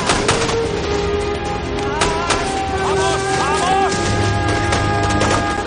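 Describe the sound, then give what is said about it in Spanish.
Gunfire in a battle scene from a war film: a few sharp, scattered shots crack through while shouting voices carry over the fighting. “Red corre hacia él, se agacha a su lado mientras continúa disparando.”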